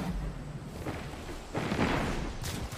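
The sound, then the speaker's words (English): Double grenade launcher blasts in a Destiny 2 Crucible match, a few muffled booming bursts rising out of a steady game background. “Isn't that a double grenade launcher?”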